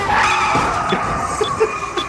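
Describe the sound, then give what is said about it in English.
Car driving while merging onto a freeway, a continuous engine and road hum with a steady tonal drone, dotted with a few brief, higher squeaky accents toward the end. “another car ride, another opportunity to practice my DJ ramp-ups. Just got to navigate iTunes while merging onto the freeway.”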